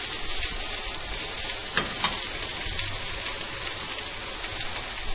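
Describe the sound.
Potatoes and spring onion seasoned with salt and pepper fry in a pan, giving a steady, even sizzle with dense crackling throughout and a couple of slightly louder pops. No voices are heard.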